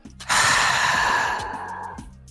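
A deep human exhale, one long breath pushed out hard at first and then trailing off over about two seconds, with no talking.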